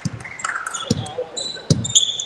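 A basketball is dribbled up the court in a women's team game, a few heavy, low thumps spaced roughly a second apart over quieter background noise.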